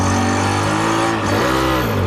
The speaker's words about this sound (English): I manage to drive the shoe around the car park for about 30 seconds before the engine gives out, which isn't bad for a homemade vehicle that's over 30 years old.